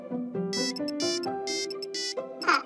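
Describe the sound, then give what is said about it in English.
Mobile phone ringtone ringing a bright, stepped melody of repeated electronic notes, fairly steady in level and heard alone. “I think that's my phone. Where did I put it?”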